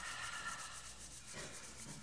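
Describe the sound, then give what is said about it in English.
Hands rub firmly together in a soft, continuous, dry rasping swish, faint and steady throughout with no voices. “Rub your hands together firmly.”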